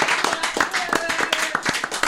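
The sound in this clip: Brisk clapping from an audience applauds a quiz contestant knocked out in the quarterfinals, with quick uneven hand claps and a voice talking over them.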